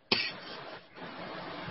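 A woman with a persistent, nagging cough gives one sharp, fairly faint cough, followed by breathy noise.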